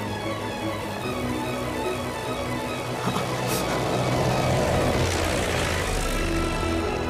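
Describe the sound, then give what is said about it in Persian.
An airplane taking off and flying: a steady, dense engine roar that fills the whole clip and swells slightly louder toward the end, with no voices over it. “داره پرواز میکنه. پرواز کردیم.”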